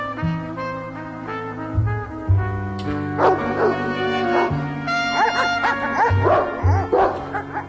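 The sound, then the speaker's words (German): Dobermans bark wildly while jumping up at a wire mesh fence: many loud, excited barks and yips in quick succession, overlapping and continuous throughout, with no voices. “Die Hunde springen am Maschendraht hoch, bellen wie toll.”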